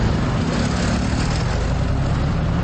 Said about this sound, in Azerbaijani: Bakının mərkəzindəki küçələrdən biri, Nizami metrosunun yaxınlığındakı Cəfər Cabbarlı küçəsidir. Şəhərin bu yerində isə digər bölgələrdə olduğu kimi adi maşınlarla yanaşı, həm də iri yük maşınlarına,